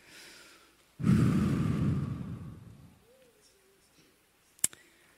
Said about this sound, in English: Let's take a deep breath.